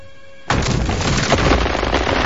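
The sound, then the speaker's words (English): A ship's cannon fires during a naval battle. A sudden loud blast cuts off a quiet tonal passage and carries on as a dense, sustained roar of rumbling noise. “Pullings fires a cannon. An eerie silence descends, the thick gun smoke obscuring both ships.”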